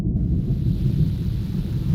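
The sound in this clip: Thunder rolls as a deep, continuous low rumble that stays steady in loudness for the whole stretch, with no voices and no distinct cracks or separate claps.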